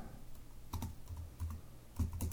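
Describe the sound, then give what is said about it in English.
Computer clicking: several quiet, crisp taps land at irregular intervals over a low, steady background murmur, with no voices. “let's go over here and let's click on this too. Uh, pop, pop, pop.”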